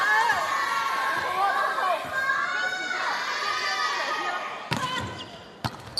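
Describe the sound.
Volleyball serve during a match, with a couple of sharp ball strikes near the end rising above constant loud crowd noise and shouting voices.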